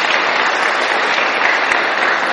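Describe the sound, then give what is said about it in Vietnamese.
Audience applause at a talk: a dense, steady burst of clapping that holds at an even, fairly loud level for about two seconds, with no speech over it. “Cho một tràng pháo tay.”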